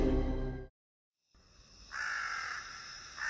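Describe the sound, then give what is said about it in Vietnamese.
Crows cawing at night in remote countryside, a couple of harsh, raspy calls over faint background hiss. A brief loud burst and a short silence come before them. “Tiếng quạ kêu xé toạc màn đêm của vùng quê hẻo lánh.”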